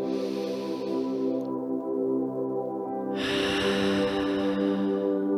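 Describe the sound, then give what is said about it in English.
Deep breathing during a guided breathing exercise: a soft airy breath sound with a stronger, louder rush of air in the second half, over a steady sustained musical drone. “Hold it at the top. And exhale. Another inhale. Relax. Inhale.”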